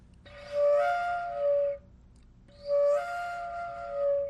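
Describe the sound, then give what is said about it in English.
An owl call played on a wooden owl flute, giving two long, breathy hooting notes with a mournful tone. Each steady note lasts over a second, separated by a short pause. “And this is what I like to call the owl flute.”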